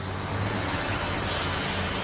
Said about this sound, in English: Footage shows a large dump truck with a black standard towing a missile launcher past gathered locals.